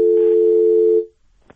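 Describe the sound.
A telephone line tone sounds as a listener calls in to a radio phone-in. One loud, steady tone holds for about a second and cuts off, followed by near quiet and a brief click.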